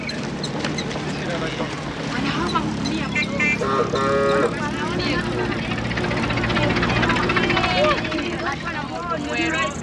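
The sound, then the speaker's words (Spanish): Engine drone of a 1920s right-hand-drive car with a square nose, running boards and black fenders as it drives onto a farm estate. A steady, rumbling hum continues throughout, with voices heard over it. “El automóvil entra en la finca.”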